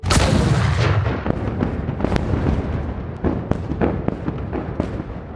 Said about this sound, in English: you can see that this panther monster did indeed have more of these mines on it, and you set off a chain reaction on the inside.